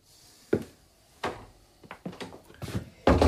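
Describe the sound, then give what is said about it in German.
A door being closed: a few muffled thumps and knocks of handling at uneven intervals, then a louder, sharper closing thud at the end, with no talk over it. “mach die Tür zu”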